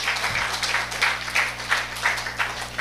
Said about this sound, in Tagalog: Palakpakan po natin si Lord.